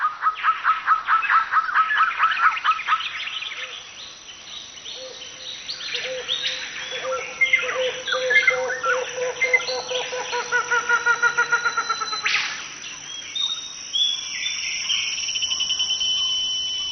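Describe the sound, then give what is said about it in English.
Early-morning jungle forest chorus of birds and insects, a dense, continuous web of chirps, whistles and rapid pulsing trills. A strong rhythmic trill opens the passage and another returns near the end, with calls overlapping throughout. “In the early morning, the forest's chorus is particularly rich. Sounds travel further in the cooler air.”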